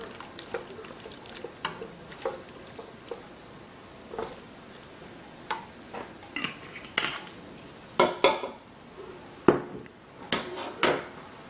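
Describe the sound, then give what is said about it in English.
Sweet and sour sauce goes into a pan of shrimp, with many clinks and scrapes of utensils against the pan and a soft liquid pour and stir. The clatter grows louder and sharper toward the end. “And now I'm going to put our sweet and sour sauce in there.”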